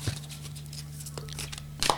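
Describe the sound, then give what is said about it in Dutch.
A deck of oracle cards is shuffled, making soft papery patter and rustling over a low steady hum, with a brief louder riffle near the end. “Er zitten te veel kaarten in het spel. Even kijken, ik ben aan het schudden voor jullie.”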